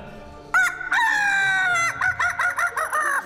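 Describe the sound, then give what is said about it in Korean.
A chicken crows loudly near an apartment complex: a short call, then a long drawn-out crow, followed by a quick run of clucking bursts, with no voices. “닭 소리가 들립니다.”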